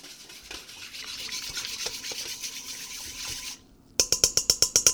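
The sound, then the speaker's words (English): Whisking of a yeast mixture in a bowl: a steady scraping swish, then a short pause followed by a run of quick, evenly spaced whisk strokes. “And I'm speeding it along with a whisk a little bit.”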